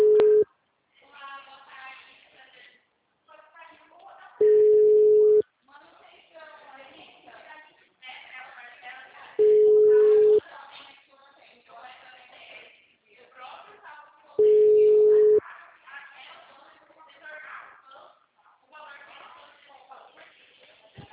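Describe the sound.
Ringback tone on a phone call as the caller waits for an answer: a steady mid-pitched tone sounding for about a second at regular intervals of roughly five seconds, repeated a few times, with people talking between the tones.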